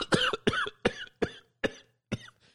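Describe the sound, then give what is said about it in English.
A person imitates a deep, hacking cough with a rapid run of harsh, rasping bursts at an even rhythm, the last one fainter. “If you're out anywhere and somebody hacks right now, just a deep like,”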